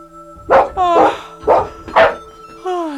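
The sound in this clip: A dog barks in a quick, loud series of sharp barks and yips with no other sound, roused by an unusual noise from the next room at night.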